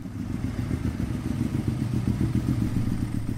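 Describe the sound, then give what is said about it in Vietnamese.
A motorcycle engine putters as the bike rides into a temple yard, a low rhythmic thrum pulsing evenly throughout, fairly faint and with no voices. “Bỗng chú nghe thấy tiếng xe gắn máy của thầy chạy vào sân chùa.”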